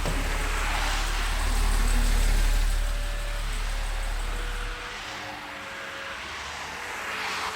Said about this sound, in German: Ein Mercedes hielt vor dem Café.